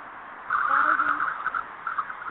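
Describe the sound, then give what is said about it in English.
Car driving: a steady, muffled rumble of road and engine noise with a faint low droning tone running underneath, continuous throughout with no clear talk. “Somebody driving.”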